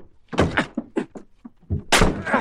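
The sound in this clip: Heavy thuds of a bolted door being broken in: several blows in a row, then a louder, longer crashing burst.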